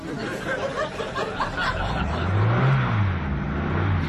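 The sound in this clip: Engine of a Transit van being revved in the street outside a tower block flat, a low rumbling drone that swells into a stronger rev midway and then eases back, heard alone without speech.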